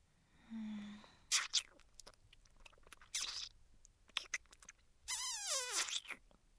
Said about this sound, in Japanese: 食べてる。